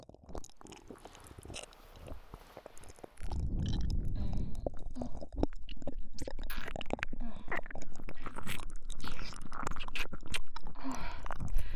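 Wet kissing and lip-smacking sounds, close and intimate, start faintly and then turn into a long, irregular run of many quick, moist smacks and clicks after a few seconds.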